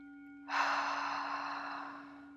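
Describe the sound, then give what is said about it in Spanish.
A single deep breath taken during a guided meditation, starting abruptly and drawn out for nearly two seconds as a soft airy rush that gradually fades, over a faint steady low hum. “Vamos a respirar profundo.”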